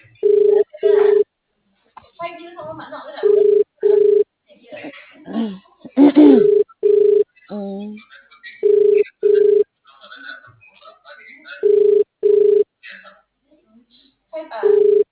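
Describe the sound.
Ringback tone of an unanswered telephone call: steady, mid-pitched double tone bursts repeating about every three seconds, with voices talking in the gaps between rings.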